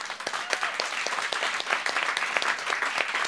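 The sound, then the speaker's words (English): Applause from a studio audience: dense, steady clapping that fills the whole stretch without a break, loud and even throughout. “Why don't we give it up for our studio audience? Yeah, I love that. Thank you, everybody.”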